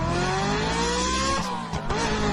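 A car driving sound effect plays: a steady, full engine drone with a faint tonal whine, briefly dipping and fluttering near the end before resuming.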